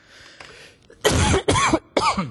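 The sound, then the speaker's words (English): A person coughs three times in quick succession, loud and harsh bursts that follow a few faint, breathy sounds. “Excuse me, one second, I must cough.”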